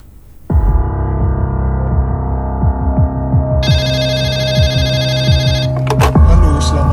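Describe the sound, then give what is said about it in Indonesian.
A telephone rings at night with a steady, warbling ring tone that starts after a short quiet moment. A higher buzzing layer joins partway through, and the ringing stays loud to the end. “Malam itu, Erwin Pandia menerima telepon dari seorang warga di Kecamatan Tanggul, Jember.”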